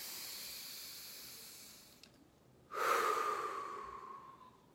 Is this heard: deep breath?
yes